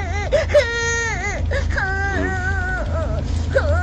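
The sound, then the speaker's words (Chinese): A boy hit by snowballs cries and whimpers in wavering, high wails that rise and fall without pause, with a steady low hum underneath. “哪里有什么伤啊？别哭了，快回家去吧。”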